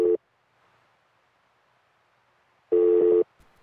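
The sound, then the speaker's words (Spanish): Telephone busy tone after a dropped call: a short tone fragment, a long silence, then one loud, steady beep of about half a second. “Bueno, parece que se le cortó la llamada.”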